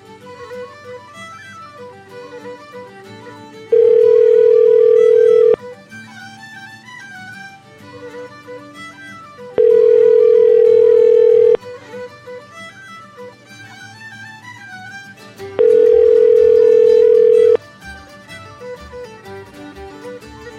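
A telephone ringback tone sounds on an outgoing call: three steady tones of about two seconds each, spaced roughly four seconds apart over background music.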